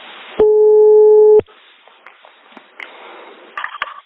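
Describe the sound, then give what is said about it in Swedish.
A telephone ringing tone during a call: one steady, clear mid-pitched tone lasts about a second, followed by faint clicks and handling noises on the line. “Vi ringer Solvallakungens änka Anita.”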